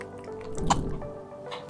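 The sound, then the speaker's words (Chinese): A thick potato-flour paste is stirred after a digestive enzyme is added. It gives a faint, sticky, wet squelch, with one brief squish standing out midway and no talk. “我们在这个糊中加入一小包消化酵素，然后呢我们来搅拌它。”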